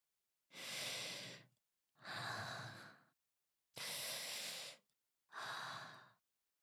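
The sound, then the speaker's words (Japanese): Deep breathing: four slow, evenly spaced breaths, each a soft airy hiss lasting about a second with clear pauses between, quiet and alone with no other sound. “はい、ちょっと深呼吸しようか。”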